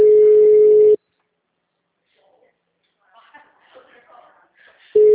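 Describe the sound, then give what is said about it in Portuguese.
A telephone busy signal sounds as a steady, loud single-pitched tone that cuts off after about a second and returns near the end, with faint, indistinct talk in the quiet gap between. “O número de escada não está atendendo. O número está ocupado.”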